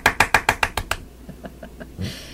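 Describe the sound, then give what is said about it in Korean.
Applause late at night: seven quick, crisp claps in an even rhythm, then four softer, sparser claps and a short soft burst of noise at the end. “야밤에 박수 받는 네.”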